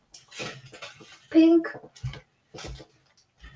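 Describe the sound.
Utensil clinking and scraping against a pot while a stew is stirred, a few brief clatters heard amid people talking.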